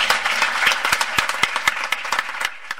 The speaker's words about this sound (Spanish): Quiero un aplauso para ellas